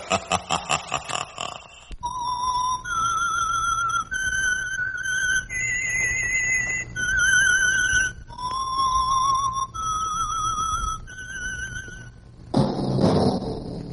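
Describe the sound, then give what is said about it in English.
Whistled signature melody from an old radio drama, a series of about eight clear, sustained notes that step up and then back down before repeating. A rapid pulsing sound comes first, and a brief noisy burst closes it. “That whistle is your signal for the Signal Oil Program, The Whistler.”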